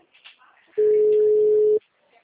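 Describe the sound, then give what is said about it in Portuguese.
A telephone busy tone sounds after a call drops. It is one loud, steady, flat tone lasting about a second, with a faint voice just before and after it. “Ah, desligou. Alô? Oi, acho que a ligação caiu.”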